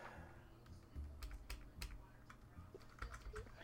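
Typing on a computer keyboard: a faint, irregular run of light clicks and taps, some closely bunched and some spaced apart.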